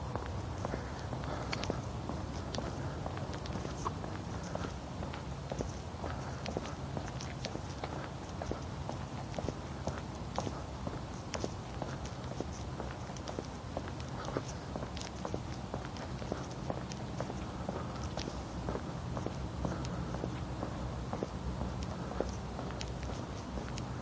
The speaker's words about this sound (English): This is my neighbor out for her walk this morning.